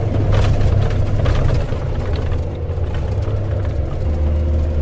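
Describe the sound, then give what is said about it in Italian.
Engine rumble and road noise from a Lince armoured vehicle driving fast on a rough road full of potholes and stones, a steady, loud low drone throughout. “Il nostro blindato Lince procede veloce su una strada decisamente dissestata, piena di buche e di sassi.”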